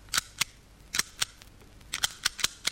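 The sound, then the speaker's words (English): A child's toy cowboy cap pistol firing a rapid, irregular series of sharp, crackling snaps, each one short and bright, with quiet gaps between them. “What's that? It's a cowboy pistol. It's a child's pistol.”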